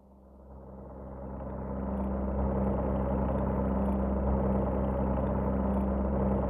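An aircraft engine in a radio play drones steadily after swelling up over the first two seconds, then holds a loud, even, rumbling roar with no talk over it.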